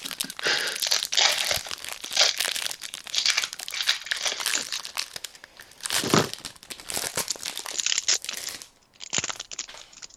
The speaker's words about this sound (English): So, right, let's all rip our packs and then we can review what we got. I think it's better if we just rip them at once rather than people listening to shit.